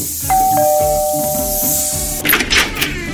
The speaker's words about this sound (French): Tiens, justement, on sonne!